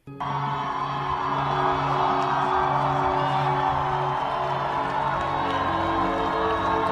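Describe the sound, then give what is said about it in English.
A protest crowd cheers, whoops and yells while an American flag is torn down, producing a dense, unbroken roar of many voices over a low steady hum. “This is the sound of the crowd tearing down an American flag, replacing it with a Mexican flag, an upside down an American flag, and an F the cops flag.”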